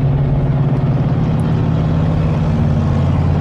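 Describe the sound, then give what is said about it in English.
A big pickup truck driving past on a Colorado Springs street gives a steady, loud, deep engine drone with a low rumbling hum that holds an even level throughout. “Sorry about that noise. One of these big ass hillbilly trucks going by. You'd think that was like a rig, big rig or something. No, that's just a guy in his truck.”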